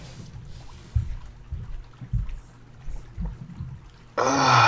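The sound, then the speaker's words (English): Water in a jacuzzi sloshes as someone climbs in. Soft, low splashes and thuds repeat at uneven intervals, then a loud rushing surge of water fills the final half-second. “The jacuzzi looks just the right temperature. Climb in, baby girl. Let yourself soak for a few seconds.”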